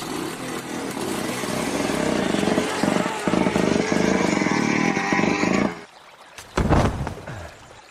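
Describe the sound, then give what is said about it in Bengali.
A motorcycle engine roars loudly as the rider turns the bike and launches it toward a ditch. The thick, sustained roar runs for several seconds, cuts back sharply, then gives one short renewed burst. “Captain Krishnan বাইকটাকে ঘুরিয়ে আরেকটু দূরে নিয়ে গেলেন তারপর আবার নালার দিকে ঘুরিয়ে ইঞ্জিনে একটা হুঙ্কার দিয়ে বাইকটা ছেড়ে দিলেন”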